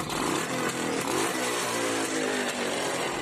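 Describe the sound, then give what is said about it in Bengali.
A motorbike roars loudly as it pulls away, a steady, rough, buzzing engine drone that stays strong throughout with no voices. “প্রচণ্ড শব্দ করে bike ছেড়ে দিল”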